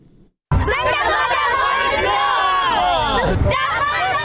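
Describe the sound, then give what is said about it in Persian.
Afghan children chant slogans together at an Independence Day celebration in Kabul. After a short quiet start, a loud, dense mass of young voices shouts in unison and keeps going steadily to the end. “این صدای کودکان افغان است که به خاطر تجلیل از جشن استرداد استقلال افغانستان شعار سر می دهند.”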